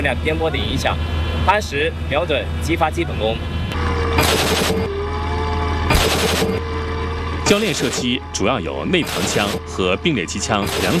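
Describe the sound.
Gunfire from a subcaliber insert gun standing in for the main gun on an amphibious armored vehicle during live-fire training at sea, a few sharp, loud bursts breaking over a steady low engine drone.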